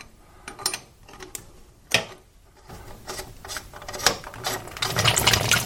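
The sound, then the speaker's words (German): Irregular clicks and rasping metallic scrapes come from unscrewing the upper part of a fitting with a seal by turning it. The sounds grow denser and louder toward the end. “noch eine Drehung. Dann kann man es rausschrauben.”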